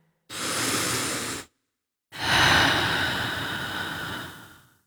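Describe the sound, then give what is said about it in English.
A slow, deliberate breath, with a steady airy inhale of about a second, a short pause, then a longer, louder exhale that gradually fades, heard alone in a calm wellness message. “Take a breath.”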